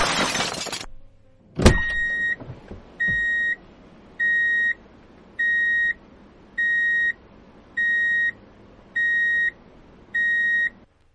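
Car horns honking in a street, heard as eight evenly spaced, steady high beeps after an opening burst of noise and a sharp bang.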